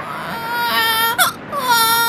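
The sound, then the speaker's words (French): A baby's high, wailing cry, used as a sound effect for a baby ant crying in a children's story, sustained and whimpering with a brief catch midway before resuming its quavering sobs. “Ils sont tous serrés, bébé fourmi se met à pleurer.”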